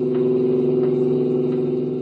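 A car cruises along a suburban highway in a radio drama, a steady, low engine drone with even humming tones and no change in pitch, heard alone without talk.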